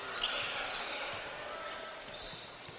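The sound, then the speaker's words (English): A basketball is dribbled on a court during a game, its dull low thuds repeating at an uneven pace and staying faint beneath steady, dense background noise throughout. “Wagner dribbles across the timeline right side”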